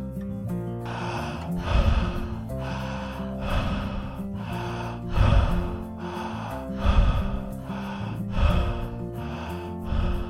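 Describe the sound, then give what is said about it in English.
Rapid, connected conscious breathing during a guided exercise, with no pause between inhale and exhale: steady, rhythmic cycles of forceful breath over soft sustained music. “Now let's move a little energy by breathing consciously in a rapid manner, connecting our breath so there's no pause between the inhale or the exhale.”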